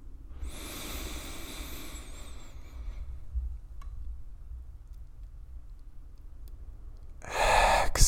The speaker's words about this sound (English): Inhale.